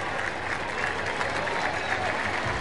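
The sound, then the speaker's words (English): Steady applause from a crowd with many children at a baseball game, greeting a pitcher who lasted six and a third innings; the clapping is a dense, even patter that runs throughout without breaks. “He deserves a much bigger ovation than he's getting right now.”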